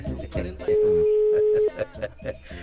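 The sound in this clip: A telephone ringback tone on an outgoing call, one steady mid-pitched beep lasting about a second, heard beneath continuous talking.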